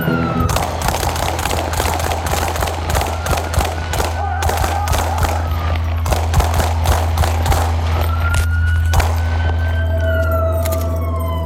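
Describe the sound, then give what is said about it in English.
Police officers fire at an armed man: many sharp gunshots crack in rapid succession over a loud, constant low rumble, while a wailing siren tone slides through the background. “we got shots fired”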